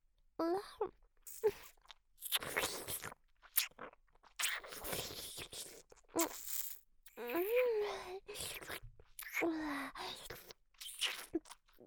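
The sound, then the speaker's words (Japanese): Close ASMR ear-eating mouth sounds: many wet, crackly crunching and biting bursts, spread irregularly with short pauses, broken by soft hummed vocal sounds. “さっきみたいにお耳食べてあげる。”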